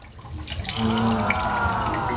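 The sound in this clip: Water pours steadily into a fermenting mixture that has just had a fermentation accelerator stirred in. The flow makes a continuous, fairly loud gurgling rush that swells after the start and holds to the end.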